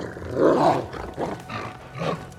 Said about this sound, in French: Le majordome s'en va, les deux loups surgissent.